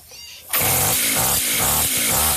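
A brush cutter engine bursts into loud running after a brief quiet start, its buzzing harmonic drone surging and dipping in a few regular pulses as it keeps going.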